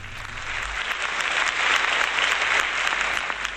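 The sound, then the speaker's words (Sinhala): An audience applauds the singers and musicians at a concert, a steady, dense patter of clapping that holds at an even level throughout, with a brief low thump at the start. “ගායන වේදියානන්ට, සංගීත වේදියානන්ට අපි හොඳ අත්පු සම්ප්‍රසාදයක් එකතු කරමු.”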